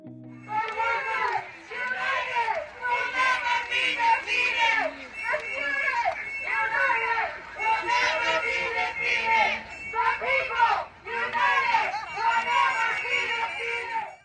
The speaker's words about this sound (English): What you just heard is the main strike line in front of Stauffer Library